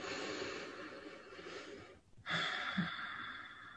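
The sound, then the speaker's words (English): A deep breath drawn in during guided meditation: soft, airy breathing that stops briefly in the middle, then another fuller inhale, all quiet and without speech. “Slowly wiggling your fingers and your toes. Taking another deep breath in.”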